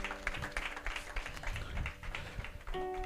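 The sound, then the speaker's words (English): An audience claps during a church service: irregular, overlapping handclaps at moderate volume, with sustained musical tones coming in near the end. “All right, ladies and gentlemen, give a clap unto the Lord.”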